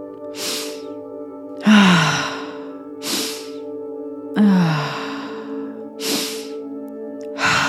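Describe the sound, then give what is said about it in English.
Forceful breathwork breaths: sharp hissing inhales alternate with loud, voiced sighing exhales that slide downward in pitch, repeating in a steady rhythm over faint, steady background tones. “Really forceful on the inhale, emoting a sound on that exhale.”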